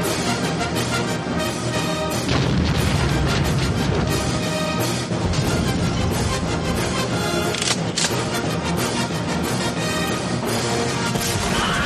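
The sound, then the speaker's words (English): Artillery fire rains down in a wartime battle: a dense, continuous roar of crashing impacts and rumbling blasts, loud throughout, with a few sharper bursts standing out from the din. “Artillery on us.”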